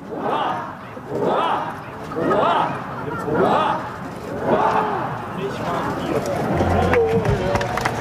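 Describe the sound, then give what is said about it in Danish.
Crowd shouting a ninefold cheer for the Danish king on his 58th birthday at Amalienborg Palace: loud chorused shouts in evenly spaced bursts, then a mix of clapping and crowd noise. “Han var ude og vinke til folket fra altanen, eller hvad det hedder, på Marselisborg. Nej, Amalienborg Slot. Og jeg har fisket det lyd ud, og så var der lige nifoldigt leve her for kongen.”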